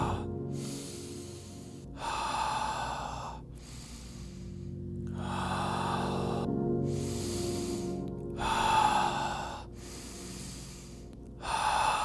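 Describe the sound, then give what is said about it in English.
Slow, deep breathing during a guided breathing exercise near the end of a round, with several long, airy inhales and exhales that alternate steadily. Each breath is a loud, hissing rush of air separated by short pauses. “We're getting close to our final breaths on this round. Deep inhale.”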